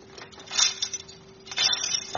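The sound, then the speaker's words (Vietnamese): Metallic jingling of a Buddhist monk's ringed metal staff being shaken gently, in a few short jangling bursts of clinking rings over a quiet background, with no talking. “mình cầm cây tức trượng rồi tới nhà ai đó, mình chỉ cần đứng mình rung nhẹ thôi”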